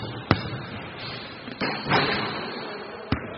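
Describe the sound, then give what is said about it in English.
Basketball bounces on a court during layup practice: a few sharp, hard thuds spread across the moment, with a softer scuffing swell between them. “And what kind of shot are we going to practice first? First, we're going to do a layup. Here we go.”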